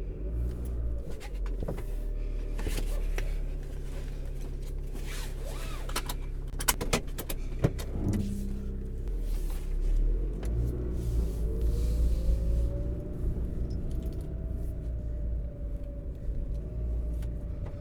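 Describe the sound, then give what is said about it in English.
Steady low engine rumble of a car slowly pulling out of a driveway on a warm morning, with a faint tone that rises gradually partway through and a few light clicks near the middle, without talk. “Slide a CD into the slot, turn the key, and slowly exit the driveway.”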